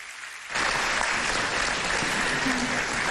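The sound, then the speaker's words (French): Audience applause at a ceremony thanking partners: after a brief quiet moment, dense, even clapping breaks out and continues steadily to the end. “On peut applaudir nos partenaires, s'il vous plaît.”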